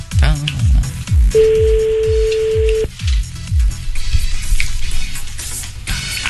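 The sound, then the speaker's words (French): A telephone ring tone sounds while a call is placed to someone's sister. One steady, single-pitched tone lasts about a second and a half amid a busy stream of quick, downward-sweeping electronic chirps. “Allez, on appelle la sœur, c'est parti.”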